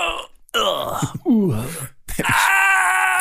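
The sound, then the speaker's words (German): A voice imitates the stifled loud cries of old computer games: a few strained, groaning wails with sliding pitch, ending in a long, sustained cry. “Ja, das sind ja die Geräusche, die früher in Computerspielen immer gemacht wurden, diese unterdrückten lauten Schreie. Sie sollten laut klingen.”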